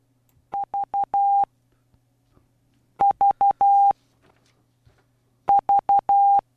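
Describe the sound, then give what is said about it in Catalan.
Morse code beeps sound in groups of three short tones and one long tone, at a steady mid pitch. The pattern repeats three times with pauses between the groups. “Tres curtes i una llarga. Amb codi Morse, Sí.”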